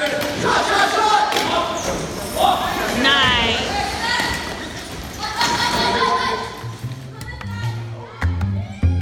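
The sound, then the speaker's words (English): A basketball is dribbled during a wheelchair basketball game between a junior team and an adult team. Loud shouting voices and crowd noise fill the court, and repeated heavy thuds of the bouncing ball stand out near the end. “A player gets the rebound, dribbles through their defenders, and makes a pass, leading to an open shot.”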